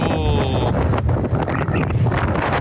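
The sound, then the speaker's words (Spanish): Strong wind blows at the pools beach area in Chañaral, a loud, steady roar buffeting the microphone with no letup through the whole stretch. “Y ahí se puede escuchar de fondo el viento. Esto es el sector de las piscinas en Chañaral. Sí, se ha levantado mucho viento”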